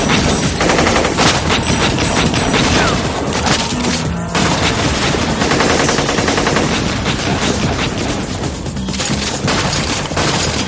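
Heavy automatic fire from two machine guns in an action scene of a 1999 science-fiction film: dense, loud, nearly unbroken bursts filling the whole clip, with only a brief dip near the middle.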